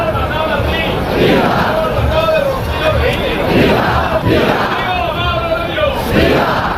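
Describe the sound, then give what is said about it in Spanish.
A large crowd roars and cheers at the traditional El Rocío romería in Andalusia as a brotherhood presents itself before the mother brotherhood of Almonte, with continuous loud hubbub and scattered shouts and cries throughout. “La aldea del Rocío acoge en estos momentos la tradicional romería. Las hermandades están haciendo su presentación ante la matriz de Almonte, como la hermandad del municipio sevillano de Gines.”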